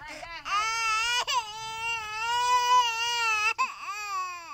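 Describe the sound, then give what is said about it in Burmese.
A small child in a village cries while its mother pulls it along, one long loud wail that rises and wavers, broken by a few sharp gasps for breath. “စံကုန်းမျိုးနဲ့ကံကလေးကျေးရွာအုပ်စုကကျေးရွာတစ်ခုမှာတော့ငိုနေတဲ့ကလေးငယ်ကိုသူ့အမေကအတင်းဆွဲခေါ်နေပါတယ်။”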